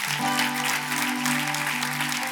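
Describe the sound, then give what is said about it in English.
Applause at a church service as the audience gives a big hand to the Lord: a dense, steady clapping that holds level throughout, with a sustained low tone beneath it. “let's give a big hand to the Lord.”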